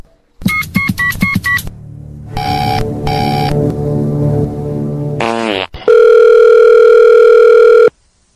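A telephone call being placed back: a quick run of dialing beeps, two short ringback tones, a brief warbling tone sweep, then a long, loud, steady tone.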